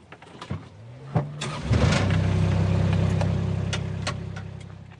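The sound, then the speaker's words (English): A car engine labours up a steep road in Waimarama Sanctuary at Nelson's Brook. A few scattered knocks and thumps lead into a loud, steady low drone that holds for several seconds, then eases slightly toward the end. “Well, let's carry on up this steep road. Yeah, it gets steeper, so hold on. It's a real white-knuckle ride. OK, I will be putting my seatbelt on.”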